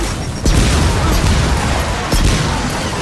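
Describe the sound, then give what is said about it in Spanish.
Two grenade explosions from the video game Gears of War 4. Two loud, sudden blasts come about a second and a half apart, each followed by a dense, crackling roar that keeps the sound thick and loud between and after them. “Lanzando granada no lo creo.”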